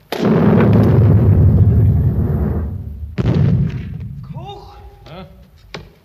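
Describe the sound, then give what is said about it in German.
Two heavy gunfire blasts from a wartime scene in a 1961 German radio play, each a loud, low boom with a long rumbling decay, the second a few seconds after the first. “Seit 3 Stunden schießen's schon wieder.”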